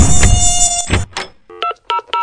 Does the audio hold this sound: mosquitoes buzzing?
yes